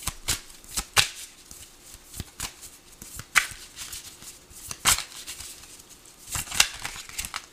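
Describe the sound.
Tarot cards being shuffled by hand before one is drawn, giving many sharp, irregular riffling snaps and flicks over a quiet background.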